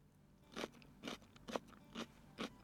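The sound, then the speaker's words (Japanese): Crisp crunching bites of autumn-harvested myoga ginger, five evenly spaced crunches at a steady chewing pace, fairly faint and with no talk. “秋に収穫される秋みょうがでこの辺もちょっといい時期なのでいただきます。”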